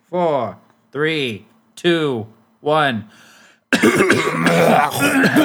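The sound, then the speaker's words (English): Throat clearing from people warming up their voices in mock seriousness: a few short voiced grunts, then a longer harsh, rough stretch of noisy clearing and coughing. “It always happens. Commence throat clearing in”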